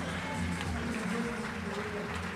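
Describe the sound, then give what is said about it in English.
Faint audience applause at a comedy show greeting a guest, a steady wash of many hands clapping that lasts the whole short clip without a clear break. “How about a big hand for the one and only Walter Molinsky?”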